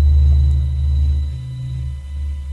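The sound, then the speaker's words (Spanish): Sonified sound of the Sun: a deep, steady low rumble that swells and eases slightly while holding a continuous droning tone, with no voices. “Pero si queréis escuchar el sonido del universo, de la potencia del universo, mirar cómo suena el sol. Escuchar esto.”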